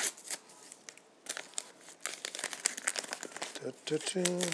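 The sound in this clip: A bubble wrap envelope is opened, giving many irregular crinkling, crackling rustles and tearing sounds, with a brief voice near the end.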